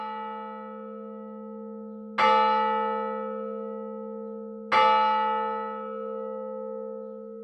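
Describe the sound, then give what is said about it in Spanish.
A bell striking eleven o'clock sounds two heavy strokes, each a bright metallic clang that rings on in a long, humming decay, with the tone of an earlier stroke still sounding at the start. “Están al sonar las 11.”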